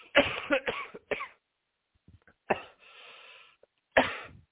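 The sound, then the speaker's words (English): Coughing from a tickle in the throat: a quick cluster of short, harsh coughs, then a few more single coughs after brief pauses, with no talking between them. “Sorry, I got a tickle in my throat there.”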